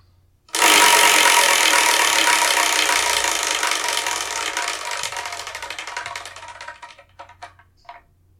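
A prize wheel being spun to pick the next manga: an abrupt start into rapid, loud clicking that gradually slows and thins out, ending with a few widely spaced last ticks.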